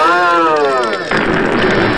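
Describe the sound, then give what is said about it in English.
Cannon fire in a space battle: a sustained, slightly falling tonal whine gives way midway to a loud, broad blast whose noisy roar carries on to the end. “The cannon is more powerful than even I would have thought. Lucky shooting! Return fire!”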